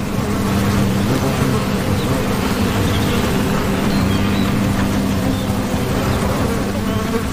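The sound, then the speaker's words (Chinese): Wasps swarming at their paper nest in a dead tree hollow make a dense, continuous buzzing drone of many insects' wings. It stays loud and steady from start to end, with no talking. “枯树洞是胡蜂建造纸质蜂巢的理想之选。”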